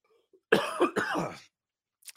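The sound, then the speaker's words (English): Coughing from someone with a cold: two harsh, chesty coughs in quick succession, moderately loud, then silence broken by a brief faint sound at the end. “cold season still. I'm coughing.”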